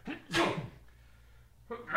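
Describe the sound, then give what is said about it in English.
A person lets out a single sharp, breathy sneeze that bursts out loudly and quickly fades into near silence. “Here goes that sneeze.”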